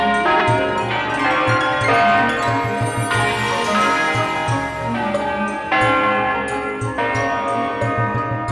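The bell of an old cathedral, recovered from the ruins of an atomic-bombed city, rings over the city at six in the evening for the Angelus. Loud, rich strokes overlap in a dense, continuous peal with many strikes.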